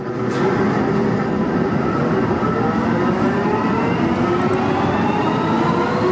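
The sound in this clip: Steady, loud rumble of an underground railway station in Bochum, with a dense rushing noise and thin high whining tones that slowly climb in pitch throughout.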